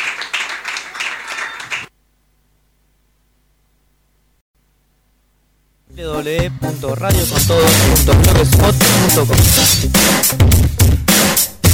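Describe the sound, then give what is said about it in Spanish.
Audience applause at a live acoustic radio performance: dense, loud clapping fills the final six seconds after a brief sound and a stretch of silence. “Uno más, un aplauso para Fede Campos”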